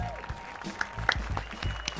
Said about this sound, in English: Everybody, put your hands together for the amazing Emily Flake.